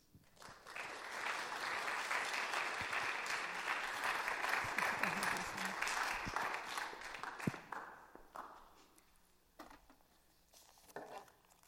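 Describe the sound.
An audience at a conference applauds in welcome for its prayer coordinator, steady clapping that holds for several seconds, then thins and fades before a voice briefly speaks.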